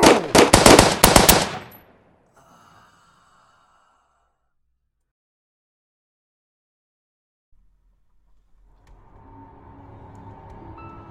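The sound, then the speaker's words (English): A loud, rapid burst of machine-gun fire in an audio drama crackles for under two seconds, then cuts to near silence before a low, faint rumble creeps in. “I will not. Don't shoot. No. That was my wife, you son of a bitch. Drop the gun now.”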